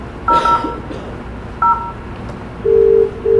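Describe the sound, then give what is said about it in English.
Telephone keypad tones sound while a phone call is placed: three brief two-tone beeps at uneven intervals, then a longer, lower steady tone. “You can see just by making a phone call,”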